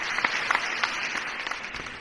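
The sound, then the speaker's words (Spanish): Applause from an audience after a speech by Spanish prime minister José María Aznar on the Basque Country, faint and steady with scattered sharper claps standing out. “Hubo una imagen poco después, justo tras estas palabras, durante esos aplausos, el presidente del gobierno, José María Aznar”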